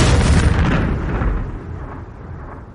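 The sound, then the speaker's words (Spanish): A burning drone explodes in a deep, loud blast whose heavy rumble rolls on and slowly fades over about three seconds. “El dron cae y explota.”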